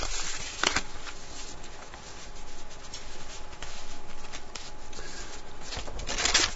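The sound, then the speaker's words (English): Paper notes being shuffled, a steady dry rustling and rubbing that runs throughout, with brief louder swishes near the start and end and no talk. “my notes are getting shuffled up here.”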